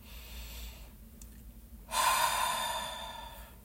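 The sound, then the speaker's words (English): A deep breath: a faint, slow inhale through the nose, then after a short pause a louder, long exhale through the mouth that gradually fades. “Nice deep inhale through the nose. Exhale through the mouth.”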